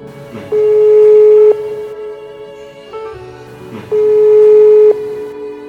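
Ringback tone of an outgoing telephone call being dialled, with two long, steady mid-pitched tones of about a second each separated by a pause.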